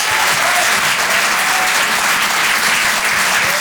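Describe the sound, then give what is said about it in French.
Audience applause for a comedian coming on stage at a comedy show: loud, dense, steady clapping that continues throughout without a break. “Je vous demande de l'encourager, faites du bruit s'il vous plaît pour Arthur sur Rire et Chanson.”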